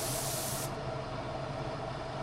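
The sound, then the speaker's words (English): Finish is sprayed onto wooden toy fire trucks in a toy factory in Burlington, Vermont, making a steady, even hiss that carries on without a break for the whole clip. “At Maple Landmark Woodcraft in Burlington, Vermont, toy fire trucks are being sprayed with finish”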